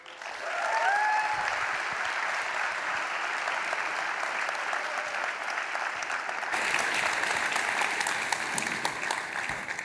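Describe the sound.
Audience applause welcoming a speaker at Messiah College: dense, sustained clapping from a large crowd that holds steady for the whole stretch, with no voices over it.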